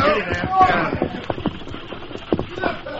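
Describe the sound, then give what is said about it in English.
Rapid clip-clop of hooves from a horse-drawn stagecoach coming through a pass into a basin on a rutted trail, with many quick hoofbeats under voices throughout. “But here comes the stage through the pass into the basin. Hit leather, boys, and be ready to ride.”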